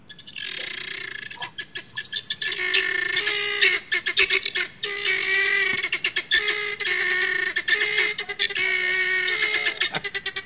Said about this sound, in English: So I had to look it up real quick and listen to this. This is from the helmeted guinea fowl.